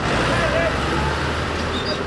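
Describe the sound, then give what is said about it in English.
Cars and trucks line up to cross the 59th Street Bridge from Manhattan to Queens. A steady rumble of engines and road noise runs throughout beneath a speaking voice. “cars and trucks are lining up to cross the 59th Street Bridge from Manhattan to Queens”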